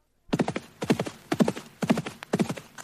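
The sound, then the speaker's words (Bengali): Galloping horse hoofbeats, loud and alone, in quick clusters of several strikes that repeat in a steady driving rhythm about twice a second. “তারপর রাজা একাই ঘোড়া ছুটিয়ে চললেন রাজপুরীর দিকে।”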